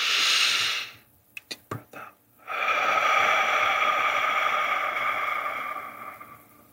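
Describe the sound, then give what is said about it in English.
Deep breath drawn in during a guided breathing exercise: a long, steady airy hiss lasting several seconds, preceded by a shorter breath and a brief quiet gap with a few soft clicks. “On the 5th breath, you're just going to clear your mind and just listen to my voice. Deep breath in.”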